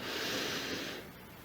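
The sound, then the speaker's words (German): A deep breath drawn in through the nose: one long, airy, hissing inhale lasting about a second, fairly loud and steady, then dropping away into quiet. “Atme nun ganz tief ein durch die Nase”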